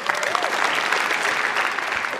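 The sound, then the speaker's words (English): Dense audience applause for someone who asked a question, a steady crackling wash of many hands clapping throughout. “Not 100% sure he deserves applause, but sure.”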